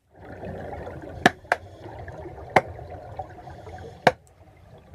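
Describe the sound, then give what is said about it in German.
Grey seals clapping under water: four sharp, loud, percussive cracks at irregular intervals, heard over a continuous murmuring, bubbling watery background. “Kegelrobben klatschen unter Wasser. Und das klingt so.”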